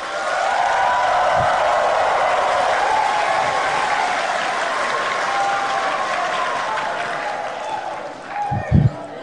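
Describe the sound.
Loud, sustained applause from an audience at an official government gathering, with crowd voices mixed in. The clapping eases slightly toward the end, where a few low thumps stand out.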